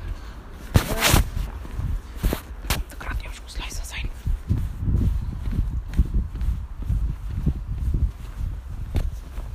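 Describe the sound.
Footsteps walking outdoors in light drizzle on the way to a bakery, soft low thuds in a steady rhythm with a few sharper knocks and rustles early on.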